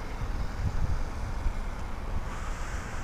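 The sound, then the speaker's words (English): Breezy night wind blows outdoors on the south side of Ottawa: a steady, loud rushing noise with low, rumbling gusts buffeting the microphone. “Nice breezy night out here. South side of Ottawa. Nice and breezy.”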